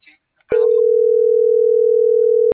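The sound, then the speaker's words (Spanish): A telephone line tone heard while dialing a call: one steady, low, unbroken tone sounds for about two seconds and then cuts off abruptly, after a brief snippet of voice at the start. “¿Sigue marcando o ya no? Sigue marcando.”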